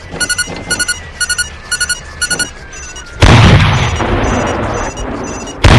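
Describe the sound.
A tank shell is fired and strikes its target in a video game. Five short clusters of quick electronic beeps come first, then a loud booming blast with a rumbling tail, and a second sharp burst at the very end.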